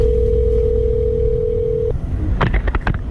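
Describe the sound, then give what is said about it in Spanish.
A telephone ring tone sounds on a recorded emergency call: a steady mid-pitched tone holds for about two seconds over a noisy line, then cuts off into a few brief broken tonal bursts. “Esta llamada que realizó este vecino al 112 la tenemos y la vamos a escuchar.”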